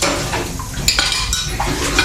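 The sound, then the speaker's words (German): Dishwashing clatter of cutlery and pots, a dense, continuous run of clinking and metallic knocks with a few sharper strikes, no voices. “Sie finden Abwaschen langweilig?”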